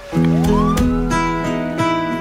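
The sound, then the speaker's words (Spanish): A harsh siren opens a song with a rising wail that sweeps upward over sustained musical tones. A few percussive hits punctuate the loud, continuous music. “Empieza con una sirena así horrible, ¿no?”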